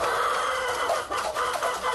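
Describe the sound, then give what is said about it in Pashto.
Chickens, about a hundred of them, clucking in a small coop of raw mud bricks in a courtyard corner of an old mud house in a Khost village. The busy, overlapping clucking from many hens is loud and continuous throughout. “دغه چرګان د یاد شوي کور د انګړه په یوه کونج کې له خامو خښتو څخه په یوه کوچنۍ جوړه شوې خونه کې ساتل کیږي.”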